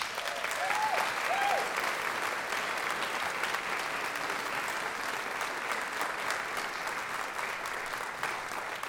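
Audience applause greeting an Irish fiddler onstage: steady, sustained clapping throughout, with a couple of short whistles near the start.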